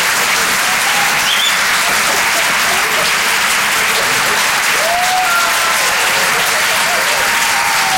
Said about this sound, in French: Faites du bruit, s'il vous plaît, pour Basile, sur Rire et Chanson.